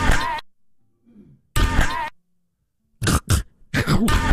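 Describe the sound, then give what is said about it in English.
A weird throat noise from a man trying to sing a Broadway note, several loud, rough voiced bursts separated by silent gaps. “Yeah, just some sort of weird throat noise as he was trying to give a Broadway note.”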